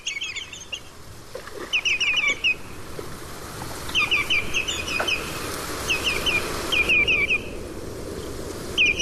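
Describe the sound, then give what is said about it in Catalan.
A common redshank (Tringa totanus) calls in repeated bursts of rapid, high whistled notes. The bursts are separated by short pauses and stand over a constant low background noise. “La sentiu així, canta l'Autringa totanus, coneguda a les illes com Camarroja, i a Catalunya com Gamba Roja.”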